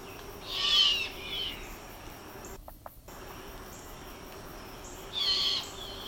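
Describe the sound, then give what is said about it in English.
Mourning dove cooing: two soft hooting calls, one near the start and one near the end, over a faint, steady background hum. “Yeah, that's the mourning dove. that last little bit was classic morning dove.”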